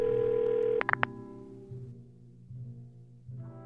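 A telephone ringing tone on a call stops abruptly as the call is answered, followed by a few sharp clicks and then a quiet, steady low hum on the line.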